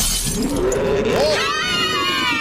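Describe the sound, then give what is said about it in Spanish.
Glass shattering as a giant shark breaks through an aquarium during a concert, a bright crash with voices heard over it and a high, sustained vocal sound near the end. “Entonces Rosalía estaba cantando y un tiburón gigante, el más grande de todos, rompió el acuario.”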